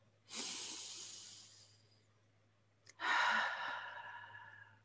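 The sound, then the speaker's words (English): A person taking a deep breath: two long, airy breaths separated by a brief pause, the second one louder and fuller with a sighing quality. “Now I invite us to take a deep breath.”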